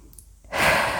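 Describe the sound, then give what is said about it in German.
A deep breath drawn in during a guided relaxation meditation: after a brief quiet moment, a soft, steady airy rush of inhaled air lasts about half a second. “Dann atme tief ein”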